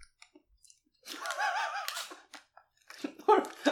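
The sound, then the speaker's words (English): Crunchy chewing of peanuts, with soft, irregular mouth crunches and clicks. People are talking between the bites. “Well, they taste all right. They're definitely peanuts.”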